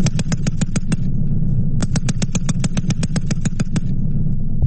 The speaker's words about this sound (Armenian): Ամերիկացի և վրացի զինվորական հրահանգիչները Վազյանի փորձադաշտում ցուցադրել են այդ զենքի կարողությունները փորձնական կրակոցներ արձակել։